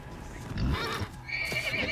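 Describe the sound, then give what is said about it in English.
A horse neighs, a loud, high wavering whinny with strong harmonics filling the second half, preceded by a lower, rougher burst of snorting noise. “Oh, horsey. Mad horsey.”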